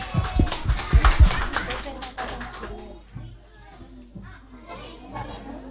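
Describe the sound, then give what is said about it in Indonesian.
Kindergarten children from TK JWP Dahanrejo clap lively at a school recitation event. Quick bursts of claps are loudest in the first two seconds and then thin out, mixed with chattering children's voices. “Beri semangat dan tepuk tangan yang meriah.”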